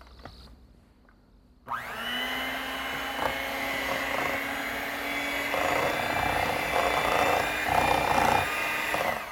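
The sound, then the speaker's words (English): An electric mixer beats wet ingredients into a batter for bars. After a quiet opening second or so, the motor switches on and holds a loud, steady whine to the end. “So I'm just going to mix those in a little bit, and then I'm going to take my mixer just to get them incorporated a little bit better.”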